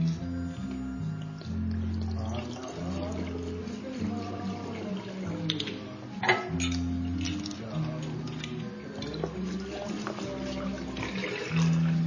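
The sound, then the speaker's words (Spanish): Liquid gurgles and splashes as bottles are emptied into a washbasin in communal bathrooms, the pouring running on in uneven bursts over a low, steady hum. “Entra en unos baños comunes. Vacía las botellas en un lavabo.”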